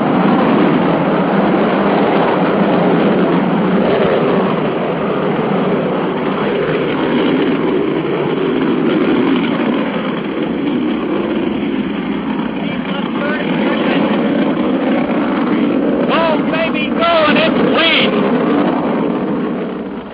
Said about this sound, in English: The MA-6 vehicle has lifted off. Trajectory looks good. The MA-6 vehicle is off the launch pad.